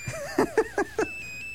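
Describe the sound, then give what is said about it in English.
Mobile phone ringtone playing a classical melody: five short, bright electronic notes in quick succession, followed by a thin, steady high tone that lingers. “I don't know who would want to walk around having a phone ring like this.”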